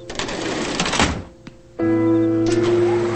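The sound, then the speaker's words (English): A kitchen trash compactor drawer slides shut with a rough scraping rumble and a small thunk, then a steady, loud mechanical hum takes over as the unit runs. “Clenching his jaw, he slides the trash compactor shut.”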